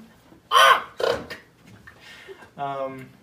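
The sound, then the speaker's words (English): A voice imitates bird calls as a video game character's 'bird language': two harsh, raspy crow-like squawks, then a longer, more tonal call after a short pause. “What language is that? That's bird language.”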